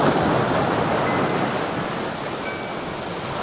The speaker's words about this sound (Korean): 파도가 밀려옵니다.